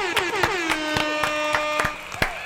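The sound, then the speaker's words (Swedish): Sharp claps in an evenly spaced rhythm, with a sustained horn-like toot sounding beneath them, its pitch dipping at the start. “En applåd och en liten tuta på det.”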